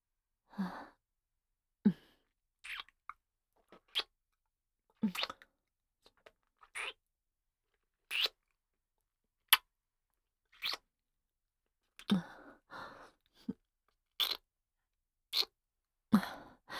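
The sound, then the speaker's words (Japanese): Many soft, wet kissing smacks on the mouth and cheeks, each one short and separate, falling in an irregular rhythm with brief gaps between them. No talk accompanies them. “それでは、お口とほっぺにたくさん甘々チュッチュさせていただきます。”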